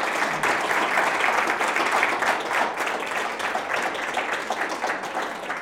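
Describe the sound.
An audience at a neuroscience conference applauds the guests of a panel, a full, steady wash of clapping that holds at an even loudness throughout.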